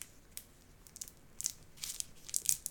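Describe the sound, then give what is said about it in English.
Crinkling and tearing as a sticker is peeled off a candy-style wrapped Bond No. 9 perfume sample; faint, scattered crisp rustles that build into a few sharper crackling bursts toward the end. “It's got a sticker on it that I gotta peel off. This is so cute. This is how most of their samples come. They come wrapped in these little.”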